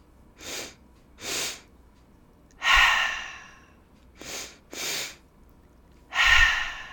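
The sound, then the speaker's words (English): Breathing exercise demonstration: two short sniffing inhales through the nose, then a longer, louder breathy exhale through the mouth. The three-part pattern plays twice. “it's going to be a three-part breath. It will be a two-part inhale through the nose, followed by a longer exhale through the mouth. So it sounds like this.”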